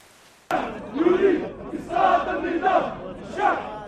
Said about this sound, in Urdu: Paris میں اتوار کو پیلس ڈی لا ریپبلک کے سامنے لگ بھگ 6,000 افراد جمع ہوئے اور انہوں نے نعرے لگائے۔